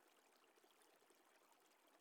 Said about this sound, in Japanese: はい、体を流しますよ。